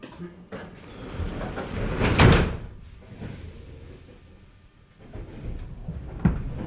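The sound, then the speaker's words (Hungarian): Budapest metro train doors slide shut with a swelling rush that peaks and fades, followed a few seconds later by a sharp thud. “szépen vigyázzanak, az ajtók záródnak.”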